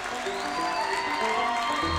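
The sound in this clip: Applause from an audience honoring a band, a fairly soft but continuous rush of many hands clapping that holds at an even level.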